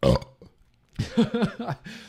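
A person burping: a brief low burp at the start, a short pause, then a longer, broken belch with a rough, gurgling, voiced quality, all fairly quiet.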